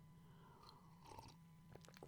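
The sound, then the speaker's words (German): A sip of coffee: faint, wet mouth sounds with a soft slurp and a few small clicks, quiet and alone with no talk. “starten wir einfach mit der ersten Frage, nachdem ich einen Schluck Kaffee genommen habe.”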